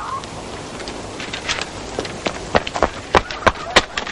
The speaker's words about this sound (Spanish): Miriam sale espantada. Dios mío, te estoy esperando. Miriam corre hacia su madre.